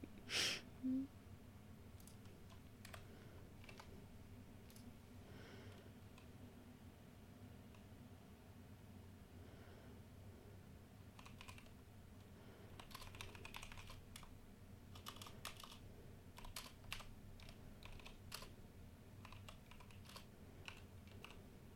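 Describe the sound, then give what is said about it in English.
Quiet typing on a computer keyboard, with many irregular soft clicks running throughout and a couple of louder bumps near the start. “I'm probably going to need you to type that out. Oh, I'm typing it out.”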